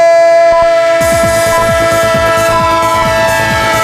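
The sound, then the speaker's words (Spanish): Train sound effect with a loud, sustained horn tone over the rhythmic clatter of wheels on rails. The clacking begins after a moment and repeats steadily under the horn. “el tren de Radio Estadio. El tren de Onda Cero, claro que sí. El tren del fútbol, el tren del deporte, el tren de esta jornada”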